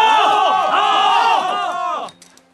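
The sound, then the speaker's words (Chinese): Troops cheer together in a Chinese historical audio drama, rallying to Cao Cao: a dense wall of shouting voices holds steady for about two seconds, then cuts off abruptly, leaving near silence. “曹操话音刚落，队伍里便发出了一阵欢呼。”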